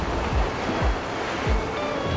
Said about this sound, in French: Bon, cette vague, elle est trop haute, là. Celle-là aussi.